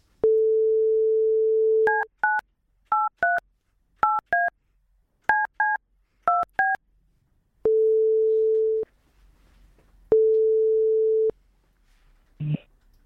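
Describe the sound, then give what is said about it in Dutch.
A telephone call being placed: a steady dial tone, then a quick run of paired keypad beeps, followed by two long, even ringing tones and a short click at the end. “En we gaan er even bellen.”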